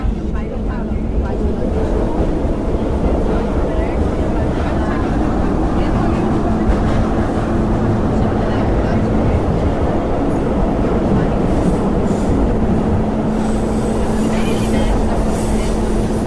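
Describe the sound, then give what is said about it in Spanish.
Metro train at a station on the red Line 3 subway, a continuous low rumble with a steady humming tone running underneath, holding a fairly even loudness throughout. “Próxima estação, C. Acesso à linha 3 vermelha. Desembarque pelo lado esquerdo do trem.”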